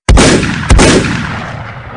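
Two loud gunshots, the second roughly half a second after the first, each a sharp blast trailing into a long, fading roar.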